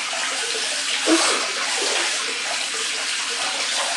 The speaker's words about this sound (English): I'm holding the nozzle with one hand and rinsing the soap out with the other